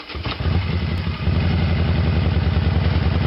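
Motorcycle engines rumble at a charity motorcycle ride, a loud, low, throbbing idle that dips briefly near the start and then runs on steadily and unbroken.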